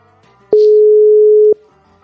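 A telephone line tone while a call is being placed: one steady, unbroken mid-pitched beep lasting about a second, alone, with no voices.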